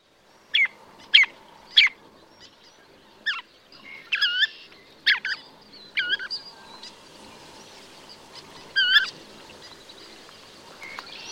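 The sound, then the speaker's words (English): Orange-crowned warbler vocalizing: a series of high, thin chirping notes, some single and sharp, others short warbled phrases, spread irregularly across several seconds against a quiet background. “Orange-crowned warbler.”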